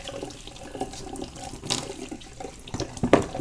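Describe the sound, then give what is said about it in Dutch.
Tap water runs while a bell pepper is washed under it at a kitchen sink, a fairly soft, continuous splashing flow with a few sharper spatters toward the end. “En dan daarna kan ik de paprika nog een keer wassen.”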